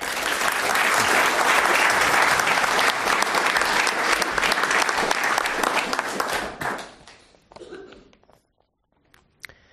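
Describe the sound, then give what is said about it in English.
An audience applauds to welcome a speaker: dense, loud clapping holds steady for about six seconds, then dies away to a few scattered claps and near silence. “please give a warm welcome to Stephen Kinzer.”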